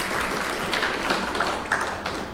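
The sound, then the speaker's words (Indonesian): An audience at a quiz contest applauds one of the competing teams, a moderate patter of many hands with a few sharper claps standing out along the way. “Ya, tepuk tangan untuk Regu B. Kita beri semangat untuk Regu B dulu, Bapak Ibu.”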